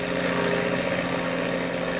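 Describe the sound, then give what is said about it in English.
Steady droning roar of a plane engine with the throttle opened wide, holding a loud, even hum with layered buzzing tones and no pauses or voices throughout. “I'm opening this throttle wide”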